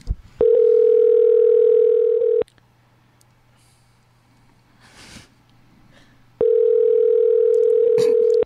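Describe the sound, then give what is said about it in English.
A telephone dial tone while calling a kosher pizza shop in Brooklyn: two loud stretches of the same flat, steady tone, separated by a few seconds of near silence with faint background noise. “We're dialing up Jerusalem Kosher Pizza.”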